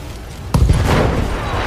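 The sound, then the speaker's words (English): Mech weapons firing in a video game: one sudden sharp blast followed by a continuous rumbling roar that carries on loudly to the end. “Maybe it's because we're too close. We're gonna fire those weapons.”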